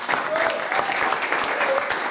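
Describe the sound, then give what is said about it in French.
Studio audience applauding on a television music show, brisk clapping with individual sharp claps standing out from the steady mass of hands, continuous and fairly loud throughout. “On l'applaudit encore une fois, s'il vous plaît, Olivier Magarotto.”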